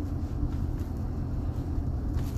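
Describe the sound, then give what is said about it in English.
Steady low engine and road rumble from a car driving along a residential road past a school in Upper Gwynedd, on Hancock Street with country on both sides; a continuous, even drone with no voices. “It's like I'm driving through this upper Gwynedd community right here, and I don't see any litter. Walk, I'm driving past the school.”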